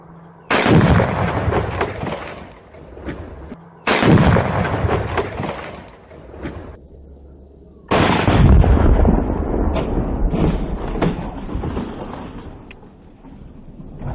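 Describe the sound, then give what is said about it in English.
Gunfire striking dynamite in Texas sets off explosions: three heavy booming blasts, each followed by a long rumbling decay, spread over about fourteen seconds. “any opportunity we have to watch a guy shoot something and it blow up, that's quality church right there, right? This is Texas and guns and dynamite,”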